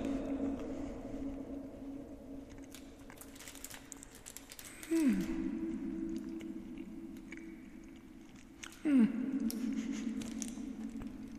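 Someone chews a bite of a caramel Twirl chocolate bar, with soft, quiet crunching and squishing over a low steady hum. Two slightly louder bites stand out among the faint chewing.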